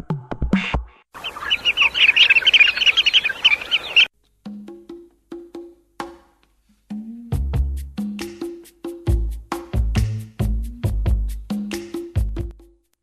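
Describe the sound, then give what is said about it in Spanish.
Birds singing, with a dense burst of high chirping and warbling, followed by a run of short, clipped calls separated by brief pauses. “Y continuamos con esto del canto de las aves.”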